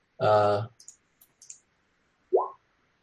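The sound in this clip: A few faint, sharp mouse clicks as dice are rolled for initiative in a virtual tabletop role-playing game. The clicks are short and scattered, set between louder voiced sounds at the start and near the end.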